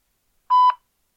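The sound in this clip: A German speaking-clock time signal sounds as a single short electronic beep, a clear steady mid-high tone lasting about a quarter second, alone between stretches of silence.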